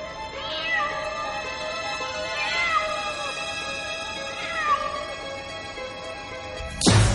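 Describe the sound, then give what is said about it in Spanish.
A cat meows while walking on the stone railing of an attic atop an old, decrepit building in central Madrid: three clear, drawn-out meows over a steady humming background, ending with a brief louder rustle. “Un gato camina sobre la baranda de piedra del ático.”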